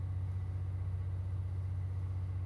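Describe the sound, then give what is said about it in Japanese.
Steady low hum of an electric locomotive running, a deep constant drone that barely changes over a few seconds, with no voices. “このまま静かに電気機関車の歌を聴きながら眠っちゃいまし”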